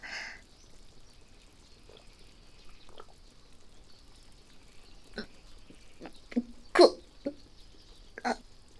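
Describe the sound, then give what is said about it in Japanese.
Gulping swallows of a drink, heard as a few short, soft wet gulps spaced apart, with a louder gulp near the end and quiet in between. “とりあえず飲むか。グビッと。”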